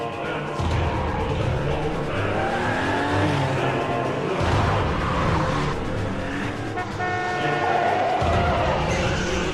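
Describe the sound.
A car driven recklessly, its engine whining loudly and continuously with shifting tones and a few brief low thumps.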